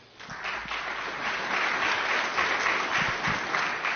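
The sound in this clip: An audience applauds to welcome two speakers onto the stage at a session. The clapping swells quickly from a quiet start into a dense, steady roar that stays loud to the end.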